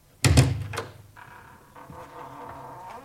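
A house door being opened, starting with a sharp clunk and rattle of the latch, then a quieter, drawn-out creak as it swings.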